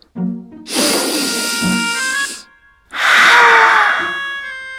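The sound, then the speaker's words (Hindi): A slow deep breath comes as two long, loud breathy rushes of air, each lasting around one and a half seconds with a short pause between, after a brief voiced sound at the start. “चलो एक बार मेरे साथ लंबी सांस लो। हा? ऐसे।”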